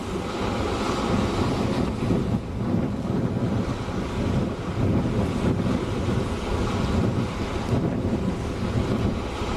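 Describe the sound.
An ocean wave washing up over a grassy shore: a continuous roar of surf, heavily mixed with strong, steady wind buffeting.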